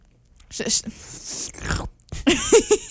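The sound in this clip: Chewing of a crunchy fruit, a few crisp, crackling bites and munching sounds with people talking in between.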